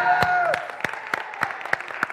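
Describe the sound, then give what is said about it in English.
A church audience claps in unison during worship, with steady rhythmic claps at roughly three per second, crisp and evenly spaced, over a faint background murmur. “we need to clap for the mighty name of Jesus”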